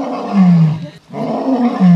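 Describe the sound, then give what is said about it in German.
An old male lion with a full mane roars in a zoo enclosure in Leipzig, where he lives alone. The loud, deep, grunting roars come in two long bursts split by a brief pause, with a low, wavering pitch. “Das ist unser Löwenmann, der jetzt seit März diesen Jahres alleine hier auf der Anlage wohnt”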